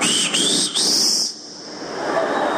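A person whistles to call someone, giving three sharp, high whistle notes in a row that each glide upward, the last held longest, then a quieter hiss follows.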